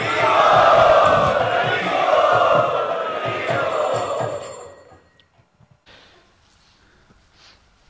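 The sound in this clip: A crowd loudly chants in welcome to a speaker at a devotional gathering. The sustained, swelling group voices hold for about five seconds, then cut off into near silence with a few faint clicks.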